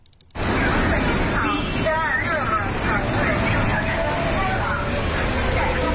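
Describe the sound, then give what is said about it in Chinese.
A Beijing city bus, route 126, pulls into a stop with loud steady engine and road noise that starts abruptly, mixed with a continuous babble of voices. “这是126路公交车进站时的声音，这段声音也伴随了这条线路上的乘客多年。”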